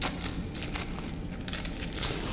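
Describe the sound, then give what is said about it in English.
Crinkling of a needle's plastic wrapper as it is unwrapped, a soft, continuous papery crackle with small sharp rustles throughout, fairly faint and with no talk. “I look the other way when he unwraps the needle, but mostly it's to hide my grin.”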